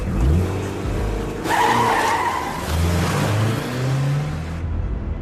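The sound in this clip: A car drives off with its engine revving, heard as a loud, continuous roar with a few rising engine surges and tire noise throughout.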